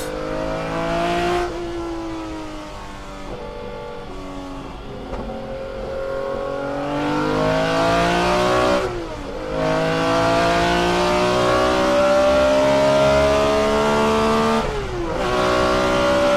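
Intake roar of a BMW M1 Procar mid-engine race car with a manual gearbox, revving loudly in strong, steady harmonic tones. The pitch climbs and then drops at a few gear changes, with no talk.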